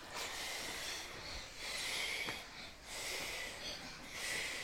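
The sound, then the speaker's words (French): Breath blown out in several soft, airy puffs, a breathy hiss that swells and fades in waves, fairly faint. “Morissette, que je souffle dessus. Et on souffle 4 fois.”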